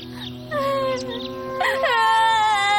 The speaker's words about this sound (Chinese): 好了，不许再哭了，闭嘴。